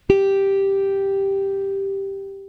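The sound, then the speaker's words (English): A guitar's first string, fretted at the third fret, is plucked once as a single note. It rings out clearly and sustains, fading slowly over a few seconds with nothing else heard. “then you will press on fret 3 on the first string and then play only string 1. It would sound like this.”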